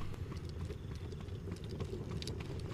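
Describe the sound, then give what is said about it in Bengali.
A horse-drawn carriage with lit lamps clatters away at speed from a stable yard. Hooves give a steady, unbroken rattle throughout. “খটখট শব্দ করে রাস্তার ওপারে গিয়ে প্রচণ্ড বেগে চেস্টার ফিল্ডের দিকে এগিয়ে গেল”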